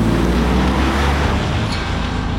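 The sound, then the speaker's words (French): A car with a punctured tyre accelerates hard to escape pursuers. Its loud, steady engine roar fills the whole clip without a break. “Jacques enfonce la pédale et met de la distance avec ses poursuivants”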